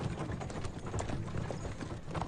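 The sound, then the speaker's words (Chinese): Horse hooves clip-clop as a horse pulls a carriage, with many steady, rhythmic hoof beats in quick succession and no talk. “冷匪把载着虎的马车驾回了桑田镇”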